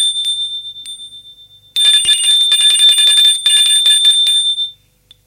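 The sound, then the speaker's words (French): A doorbell rings again: a short ring fades out, then a loud, shrill, continuous ringing lasts about three seconds before cutting off sharply. “Plusieurs fois. Silence. L'on sonne encore une fois.”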